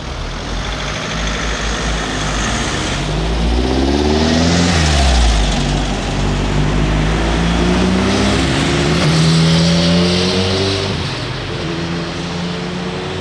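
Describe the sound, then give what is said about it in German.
An early-1970s Volkswagen Beetle with the 1200 engine drives along, its air-cooled engine droning loudly and continuously, with pitch climbing and easing back as it revs up and settles, twice over. “Geruch her, von den Lampen her und hinten vom Lüftungsgitter her ein 1200er. Anfang der 70er, der Käfer.”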